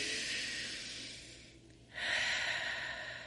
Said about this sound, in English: Let's do a cleansing inhale and exhale. Get all those sillies out. Let's do it again.